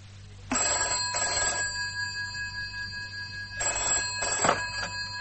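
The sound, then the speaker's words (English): Telephone bell ringing in two bursts, each a bright double ring of two short pulses, separated by a pause, with no voices over it. “Dad! Telephone!”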